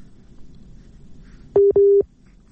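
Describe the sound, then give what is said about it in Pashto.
Telephone tone sounding after a caller's phone line is cut off: two short, steady mid-pitched beeps in quick succession, loud and clean, following a stretch of faint background hiss. “او داسې معلومیږي چې د دوی د ټلیفون لاین کټ شو.”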